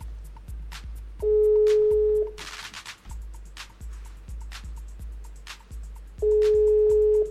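A telephone call being placed to a listener: two long, steady ringback tones sound about five seconds apart over a rhythmic low thumping pulse that runs throughout.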